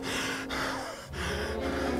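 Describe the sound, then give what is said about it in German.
Heavy, asthmatic panting from someone behind: several loud, rasping, wheezy breaths that run into one another with only brief dips, thick and noisy throughout. “Gleich darauf höre ich es hinter mir schwer und asthmatisch keuchen.”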